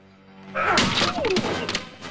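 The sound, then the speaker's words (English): A heavy thud as a chair swung in a fistfight strikes a man, one loud impact followed by a few further knocks and scuffling clatter. “The third man picks up a chair and swings it at Bond, who pulls round so that the bald man receives the blow.”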